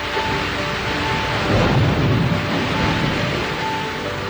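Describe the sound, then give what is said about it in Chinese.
Rain falling as a steady, dense hiss throughout, with a low rumble swelling briefly in the middle. “下雨的声音。”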